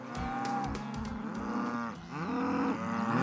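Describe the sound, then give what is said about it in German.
Cattle on a farm mooing loudly, several deep drawn-out lows overlapping in a continuous chorus with brief sharp knocks underneath, the lowing wavering in pitch throughout. “Auf dem Sophienhof in Neustrelitz machen sich die Rinder lautstark bemerkbar”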